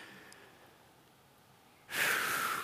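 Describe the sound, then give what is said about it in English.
A single deep breath, drawn in as a sudden breathy rush near the end after a long stretch of near silence. It is loud and airy and stands alone, with no talk. “Take a deep breath.”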